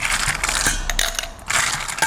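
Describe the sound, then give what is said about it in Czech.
Ice cubes clatter into glasses for a cold drink, a dense, continuous rattle of many small hard impacts that briefly thins out before picking up again. “tak protože je to studený nápoj, bylo by vhodné skleničky naplnit ledem”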